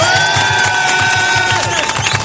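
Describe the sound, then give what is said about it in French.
Crowd cheering and clapping for a champion cyclist who rode 224 km, a loud, dense wash of whoops and applause with a low rhythmic pulsing underneath. “pour un champion qui a fait 224 km, on peut l'applaudir”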